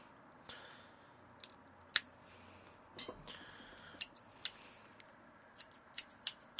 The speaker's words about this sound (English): Give that a cut with my trusty V-cutter here.